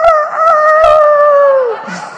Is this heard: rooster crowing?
yes